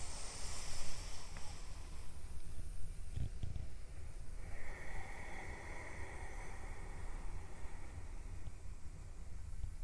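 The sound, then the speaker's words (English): Full, slow breaths drawn during a guided stretching exercise, airy hissing inhales and exhales rising and falling in a soft, breathy rush. “Two more full breaths again.”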